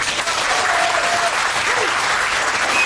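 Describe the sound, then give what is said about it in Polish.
An audience applauds loudly, a thick, unbroken wash of clapping from many hands that stays steady for about three seconds. “A od państwa wielkie brawa.”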